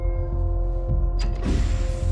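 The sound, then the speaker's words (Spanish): A horizontal chamber lid closes in a laboratory: a creaking mechanical movement with a short, sharp burst of noise partway through, over a steady low hum. “La tapa de la cámara horizontal se cierra”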